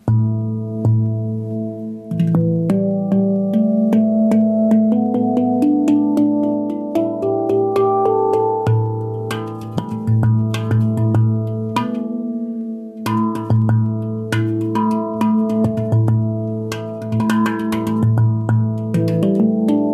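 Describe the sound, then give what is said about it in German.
Stainless steel instrument tuned to low A, struck to give clear metallic tones with long ringing sustain over a deep steady fundamental, playing a slow melodic sequence with a brief pause midway. “Diese beiden hier sind aus Edelstahl und klingen tatsächlich ein bisschen länger nach. Da habe ich hier eine, die ist in einem tiefen A gestimmt.”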